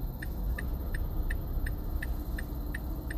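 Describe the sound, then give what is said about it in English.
A car engine and air conditioner drone together in a steady, faint, low hum, with a light, regular ticking repeating evenly over the continuous rumble. “You hear the underlying drone hum of my engine, of my air conditioner,”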